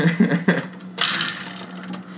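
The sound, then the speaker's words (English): Rapid ratcheting clicks of a spinning topic wheel clatter loudly after a short moment of voice, then gradually space out and fade as the wheel slows. “You want to spin the wheel of topics?”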